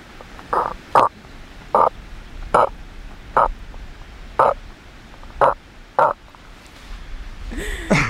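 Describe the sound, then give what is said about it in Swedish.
Voice imitation of a male cod's mating call while the pair swims belly to belly: eight short, dull, grunting knocks in an uneven rhythm, fairly loud with quiet gaps between them. “Men när de parar sig och simmar buk mot buk, då låter hanen så här.”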